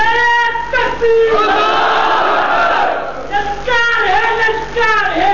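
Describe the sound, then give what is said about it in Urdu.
A large crowd roars a slogan in unison, loud and sustained, the massed shout swelling and dipping through a few repeated bursts. “نعرہ مار زور سے، نعرہ مار”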